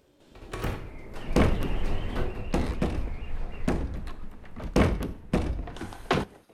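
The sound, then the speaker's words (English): A mysterious door behind attic shelves shakes and rattles in a long series of heavy thumps and knocks, loud and irregular, with no voices. “She is not present as the mysterious door behind the shelves starts to shake again.”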